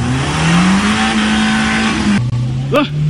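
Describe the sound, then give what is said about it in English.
Car engines rev and drone as drivers try to get their vehicles over a snowy mountain pass in the Eastern Cape. A steady, loud engine hum runs throughout over rough road noise, and its pitch shifts slightly partway through. “These drivers were seen on a social media clip helping each other trying to navigate their vehicles over a pass in the Eastern Cape.”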